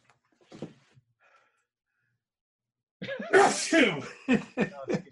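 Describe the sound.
A sharp, loud sneeze bursts out after a stretch of near silence and a faint breath, followed by several short, breathy bursts.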